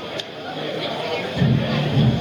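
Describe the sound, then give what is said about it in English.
Crowd murmur fills a baseball game in Wilson on a Wednesday evening as the sun sets: a steady hubbub of many voices that swells a little louder partway through, with no single sound standing out. “Pretty good crowd here for a Wednesday evening.”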